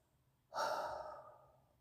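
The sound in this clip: One deep breath: a single breathy exhale that starts abruptly and fades over about a second, quiet and alone.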